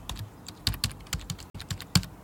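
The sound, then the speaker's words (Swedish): Keystrokes on a computer keyboard as a word is typed, with the microphone tilted down toward the keys; many crisp, irregular clicks come in quick bursts with brief pauses and no talking. “Jag vill att du vinklar ner mikrofonen mot ditt tangentbord och så skriver du fluffmassa på tangentbordet.”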